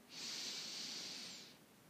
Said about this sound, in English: take a deep breath in and out. And a deep breath in